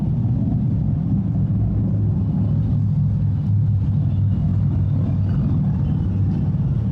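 Cars driving by outside make a continuous deep rumble that stays loud and even, with no voices over it.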